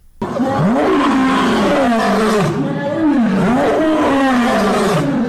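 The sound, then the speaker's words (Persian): A lion roars in a long series of deep, loud, groaning calls that surge and dip in pitch, filling about five seconds almost without a break. “این صدای قرش یک شیر است”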